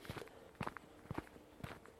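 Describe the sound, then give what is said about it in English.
Footsteps walk along a path in a wild forest on a Sunday morning, a faint series of soft, dull crunches in an uneven walking rhythm, with no talk over them. “So we're walking down a path in the wild forest.”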